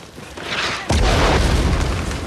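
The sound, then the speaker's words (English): A mortar shell explodes against an electricity pylon: one sudden, loud blast cuts through lower steady noise and gives way to a sustained, heavy rumbling roar. “A mortar hits an electricity pylon as men pass underneath it.”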